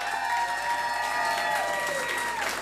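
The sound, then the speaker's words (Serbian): A club concert audience gives a tribute band's musicians a big round of applause: sustained, dense clapping mixed with general crowd noise, staying loud and even throughout. “Zaslužuju još bar još jedan ogroman aplauz.”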